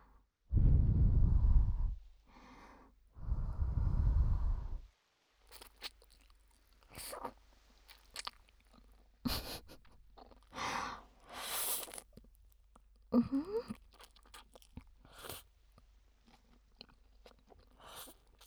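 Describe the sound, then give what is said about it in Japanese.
Noodles are slurped in two longer, breathy pulls, followed by many short, quiet chewing and crunching noises in an uneven rhythm. “麺をすすれないんです。どんな音になるのか気になって、私もちょっとやってみたいなと思いました。行きます、ちょっとすすってみます。”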